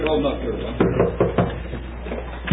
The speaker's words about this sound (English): The sheriff wields the sledgehammer once again on the locked door. There we go. Knock the door open.